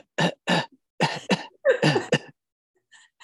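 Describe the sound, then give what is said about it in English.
Fake coughing recorded on a keyboard and played back, a series of harsh, hacking coughs in uneven bursts, with a couple of faint ones trailing at the end. “he recorded this thing on his keyboard with like, it sounded like he was coughing up a lung”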